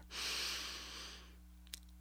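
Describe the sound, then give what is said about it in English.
A single deep breath drawn in during a short mindfulness exercise: a faint, airy inhale swells at the start and slowly fades, with a small click near the end. “Close your eyes, take a deep breath in,”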